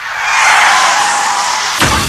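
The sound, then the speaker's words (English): A car wreck sound effect, made of a loud, sustained tire screech that holds steady for nearly two seconds. The screech ends in a sudden thud of impact. “Car wreck.”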